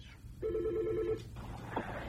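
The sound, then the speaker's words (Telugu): A telephone rings with an incoming call during a radio phone-in, giving one short trilling burst of warbling tone that is faint and then stops, followed by a brief higher chirp. “Hello అండి, radio Surabhi call చేశారు, ఎవరు మాట్లాడుతున్నారు?”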